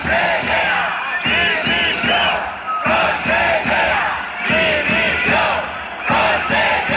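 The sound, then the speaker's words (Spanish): Hundreds of teachers protesting before the Generalitat in Valencia, a loud crowd chanting in repeated rhythmic bursts with brief pauses between phrases, voices shouting together throughout. “Centenares de docentes se concentraban en Valencia, de donde es ese sonido, ante la Generalitat.”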